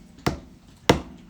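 Two crisp percussive taps are played as an eighth-note rhythm demonstration. The clicks are short and woody with brief decays and quiet gaps between them.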